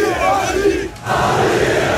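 A crowd roars and chants at a PSG trophy parade as Marquinhos lifts the cup and the players pass. The loud, massed shouting dips briefly about halfway through, then surges back.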